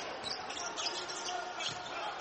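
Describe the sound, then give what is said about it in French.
A basketball is dribbled on the court during a game, producing soft, quick bounces. They sit low under a steady wash of crowd noise, and a voice talks over the scene. “Pourquoi poser un dribble? Il est très court en plus.”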